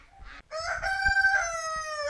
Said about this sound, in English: there's a rooster and there's geese and it's all very festive here